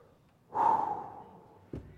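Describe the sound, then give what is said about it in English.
A person takes one audible breath during a sermon, a breathy rush of air that swells quickly and then fades over about a second, with no talking. “So just take a breath.”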